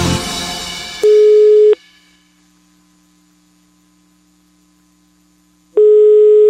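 Telephone line tone heard while placing a prank call: a brief burst of noise, then a loud, steady single-pitched beep, about four seconds of near silence with a faint hum, and a second identical beep.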